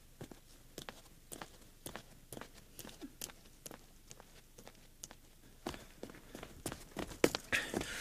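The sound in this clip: Footsteps of a person walking away, many faint, evenly spaced steps in a steady rhythm that grow busier and a little louder near the end, with no talk.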